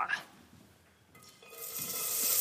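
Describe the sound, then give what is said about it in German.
Celery, onions and garlic sizzle in oil in a pot. A soft clatter comes first, then a bright frying hiss swells up and grows louder toward the end. “wir hauen jetzt erstmal Sellerie, Zwiebeln und Knoblauch in ah, Öl hast du schon reingehauen. Genau. Äh, in unser Töpfchen rein und braten das mal so ein bisschen an.”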